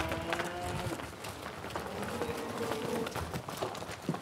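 Cows' hooves thud and scuffle as the herd runs out onto pasture for the first grazing of the season, making a continuous, fairly loud rustle of many footfalls without a clear pause.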